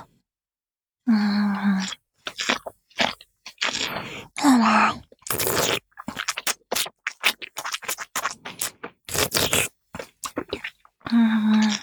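Wet chewing of food being ground finer and mixed with saliva: many irregular smacking, squelching bursts, with a few brief voiced hums mixed in.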